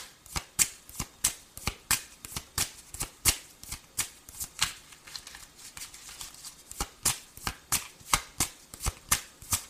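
Tarot cards being shuffled before a draw: many rapid, crisp riffling bursts in a loose, repeating rhythm, each a bright papery flutter, with no talking.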